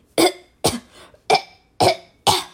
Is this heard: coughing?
yes